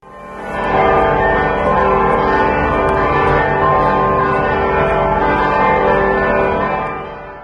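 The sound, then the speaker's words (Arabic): Church bells ringing at the Sistine Chapel in Vatican City, a loud, continuous peal of overlapping metallic tones that swells in at the start and fades away at the end. “مع دقات أجراس كنيسة سيستين بحاضرة الفاتيكان”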